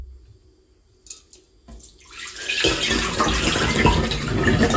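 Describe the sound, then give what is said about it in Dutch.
Hot water is poured off freshly boiled eggs. A few light knocks are followed by a rushing, splashing pour that builds quickly and stays loud and steady to the end. “Het afgieten van de gekookte eitjes.”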